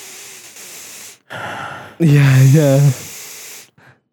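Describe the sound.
A voice imitates a deep sniffing inhale of a man's bare backside: a breathy intake, then a loud, wavering, voiced groan with a trailing breath.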